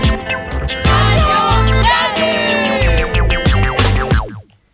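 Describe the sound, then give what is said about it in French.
A short radio show jingle for Radio Canu, a bright musical sting with layered tones, rising swoops and rhythmic hits. It plays loudly throughout, then cuts off abruptly at the end. “Vous venez d'entendre le jingle d'une émission qui se déroulera en public demain à 15h à l'annexe de l'ECG et du coup en direct sur les ondes de Radio Canu.”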